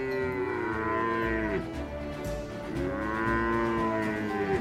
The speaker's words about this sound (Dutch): Als hij zijn koeien door de droge wildernis van Wyoming leidt